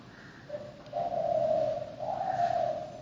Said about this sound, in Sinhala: ඔය කුරුල්ලෙක් කෑ ගහන සද්දේ ඇහෙනවන්නේ නේද